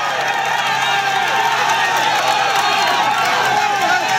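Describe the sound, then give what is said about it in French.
A dense roadside crowd cheers cyclist Richard Carapaz on a narrowing mountain climb, with loud continuous shouting, whoops and clapping forming an unbroken wall of noise. “Et là, effectivement, il y a énormément de monde et ça encourage le coureur équatorien. Vous entendez peut-être le bruit derrière. On va monter l'ambiance pour que vous en profitiez.”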